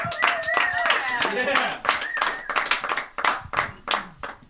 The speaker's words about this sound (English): Comedians, come back to the stage. Yeah. Give it up for our comedians tonight.